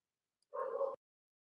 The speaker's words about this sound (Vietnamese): Con chó nó sủa quá.